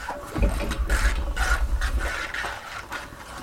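A desk globe spun upside down makes a steady rasping whir, with soft rhythmic scraping and a low rumble as it turns. It runs throughout at moderate loudness, with no talk.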